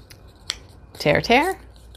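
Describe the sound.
Paper tears for a collage page: one brief rip stands out, then a voice is heard.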